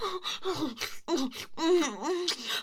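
A woman gasps for breath after being unable to breathe, letting out several breathy, voiced gasps and moans in quick succession, with wavering pitch, loud and close together.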